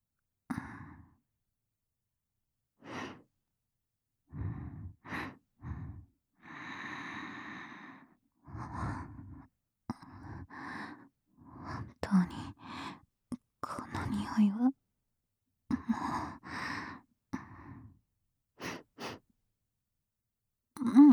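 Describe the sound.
Deep, slow breaths and soft sighs repeat many times in uneven airy bursts separated by short pauses, breathy and whisper-like in texture with no clear speech.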